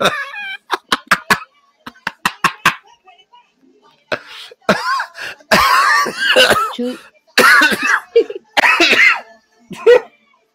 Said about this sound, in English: I actually laughed so hard that I was just coughing.